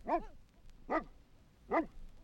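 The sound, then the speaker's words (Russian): Three deep, evenly spaced barks from a Newfoundland Landseer search-and-rescue dog, each short and full-voiced, with quiet pauses between them. “Это Кера, ее порода Ньюфаундленд Лензер. Даже по голосу можно определить, что собака она добродушная, рассудительная.”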